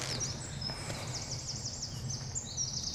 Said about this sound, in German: Das ist der Zaunkönig. Einer der kleinsten Vögel, die es bei uns gibt, aber mit der lautesten Stimme.